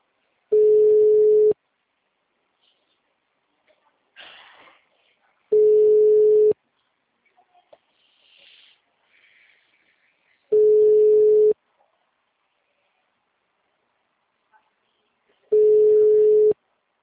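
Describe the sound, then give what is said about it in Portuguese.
A telephone ringback tone sounds while a call is being placed: four steady, mid-pitched beeps, each about a second long, spaced evenly about five seconds apart, with near silence between them. “Não vou mandar mensagem, vou só ligar.”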